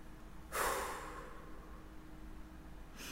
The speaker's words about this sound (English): I took a deep breath because I kind of relate to this.